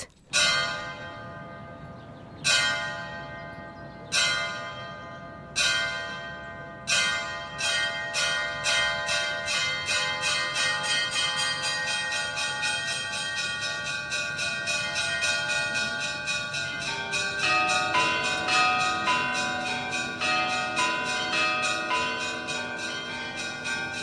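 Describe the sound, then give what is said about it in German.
Church bells played by hand and foot from an open platform, the two largest bells worked with the feet, with a slightly tinny, rattly tone. A few widely spaced resonant strikes give way to many rapid, overlapping peals that ring on continuously. “Ich weiss jetzt nicht, ob das despektierlich tönt, aber für mich tönen die Glocken eher ein bisschen scherbelig.”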